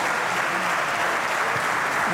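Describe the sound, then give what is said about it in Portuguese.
Sustained, dense applause fills a parliament chamber as a party's bench stands to clap for their leader, loud and continuous throughout. “E levanta-se a bancada do Chega para aplaudir o seu líder.”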